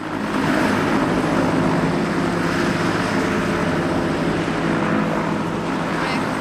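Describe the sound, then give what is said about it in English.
A rescue helicopter lifts off a mountain with a loud, continuous rotor and engine drone. A low droning hum stays constant throughout. “Jack and Sammy are on board an elevating helicopter.”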